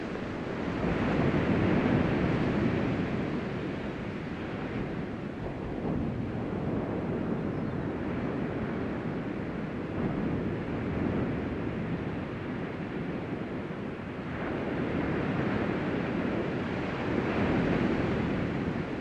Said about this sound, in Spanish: mientras escuchas el sonido de las olas del mar